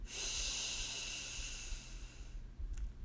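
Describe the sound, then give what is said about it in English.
A deep breath drawn in and let out during a guided relaxation exercise: one long, loud, airy hiss that holds steady and then fades to a softer rustle, with no talk. “Deep breath in. And out.”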